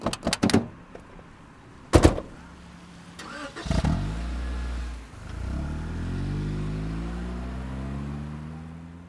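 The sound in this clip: Car door closing and a car driving off: a few sharp thuds of doors shutting, then an engine starting and revving with rising pitch as the car pulls away, its hum holding steady to the end.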